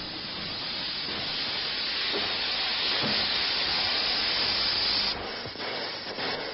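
Railway station ambience: a steady, continuous hiss of steam fills the whole stretch at an even level, dipping a little near the end.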